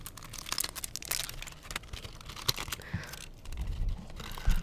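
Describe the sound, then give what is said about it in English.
Crinkling foil being handled close up: many irregular crackles and rustles that grow denser and louder toward the end, with no voices. “I have some foil here.”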